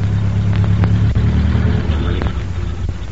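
A car pulls up at a gas station with a loud, steady low engine rumble and road hum. The sound eases off slightly toward the end and is heard alone, without voices.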